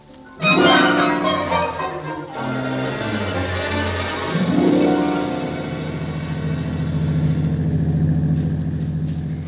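A car drives through fog in a radio drama: a droning engine hum with tonal harmonics whose pitch slides and swells, rising again around the middle, continuous throughout with no voices.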